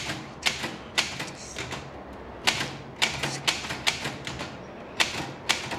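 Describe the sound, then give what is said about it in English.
Typewriter type bars striking a sheet of paper as the black ink ribbon jumps, producing many sharp, irregular clacks in quick bursts with short pauses between them. “The typewriter's black ink ribbon jumps up and down as the lettered type bars strike the page.”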